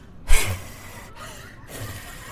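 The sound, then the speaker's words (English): A voice imitates mouth-to-mouth rescue breathing given to a grandfather who stopped breathing: one sharp, breathy gasp-like blow, then a couple of softer, airy exhalations that trail off quietly. “She hit him and hit him and hit him and hit him. And then she breathed into his mouth like...”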